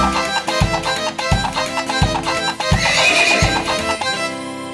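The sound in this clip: A pony neighs once, high and shrill, over steady, regular low hoof thuds of a gallop.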